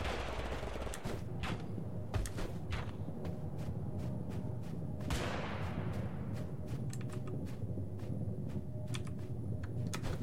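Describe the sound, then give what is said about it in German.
Video-game gunfire in Totally Accurate Battlegrounds: many sharp shots, some single and some in rapid bursts, crack over a steady, dense background din. One heavier blast stands out near the middle. “Wer schießt? Wer war da? Wer war da?”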